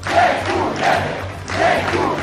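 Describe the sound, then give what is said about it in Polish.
Hundreds of fans cheering to welcome the volleyball world champions at the capital's airport, a dense crowd roar rising and falling in rhythmic surges, like chanting. “Gorące powitanie mistrzów świata. Setki kibiców witało siatkarzy na stołecznym lotnisku.”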